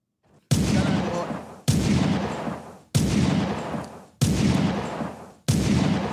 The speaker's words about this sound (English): Put the gunshots on.